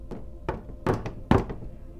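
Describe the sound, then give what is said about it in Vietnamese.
Knocking on a door, growing louder and more urgent. A few heavy, dull thuds land at roughly even intervals, with the later ones stronger and doubled, and no voices are heard. “Tiếng gõ cửa lớn hơn như đang thúc giục.”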